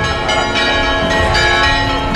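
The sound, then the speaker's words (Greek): Church bells ring joyfully for a religious festival at the church of the Virgin on Tinos, a loud, dense wash of overlapping metallic tones sounding continuously throughout. “Τα εμβατήρια πεανίζουν, οι καμπάνες χτυπούν χαρμόσυνα και χιλιάδες άνθρωποι περιμένουν να περάσουν κάτω από την θαυματουργή εικόνα της Παναγίας.”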